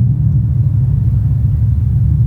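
Low, steady engine rumble from a manual car as the clutch bites and the car, in gear, creeps forward. A constant deep drone holds without change and no voices are heard.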